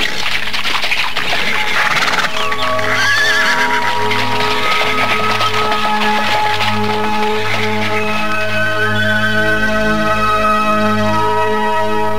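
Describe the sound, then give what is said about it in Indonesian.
A horse neighs while pulling a cart along a village route, with a clear whinny early on and soft hoof clops, all over a loud, sustained tonal background. “Rakrian Saladenta mengikuti gerobak kereta Nyai Kolot untuk menuju rumahnya”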